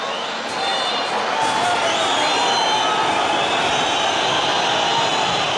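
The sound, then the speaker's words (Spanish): A football crowd whistles in protest after a Sporting home win, a dense, loud, continuous wash of many shrill whistles over a roaring crowd that holds steady throughout. “Una sonora y mayoritaria pitada.”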